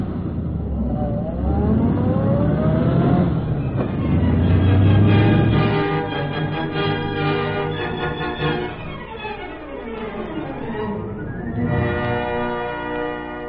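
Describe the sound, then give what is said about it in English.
A taxi cab speeds off in pursuit, its engine revving hard and loud for the whole stretch, with the motor's pitch sweeping up and down as it accelerates. “Follow the cab that's turning the corner. Step on it.”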